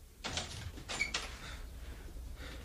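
A door opening in a radio drama scene, heard as a few soft scraping, rustling bursts over a low, steady background hum.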